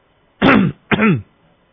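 A man gives two deliberate coughs, throat clearings made to signal someone during prayer. Each is a short, voiced burst with a falling tone, separated by a brief pause, alone against near silence.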